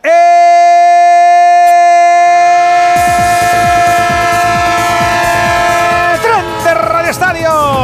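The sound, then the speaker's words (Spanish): A train sound effect in a radio station jingle: a loud, sustained, horn-like tone is followed by a steady clattering rhythm of wheels on rails that continues to the end. “el tren de Onda Cero, el tren de las 7, el tren de las 6 en Canarias, el tren que te lleva, te trae, el del traqueteo que no marea”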